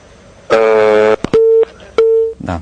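After a listener's phone call drops, a loud busy signal sounds: a buzzy harsh tone, then a click, then two clean, evenly pitched beeps, ending in a short burst of noise.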